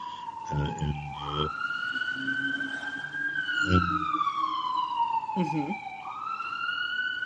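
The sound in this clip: A loud emergency siren wails continuously, its pitch climbing slowly, then falling and rising again, with brief bursts of voices over it.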